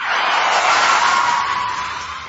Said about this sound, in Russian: а водитель почему-то с резким воплем ударил по тормозам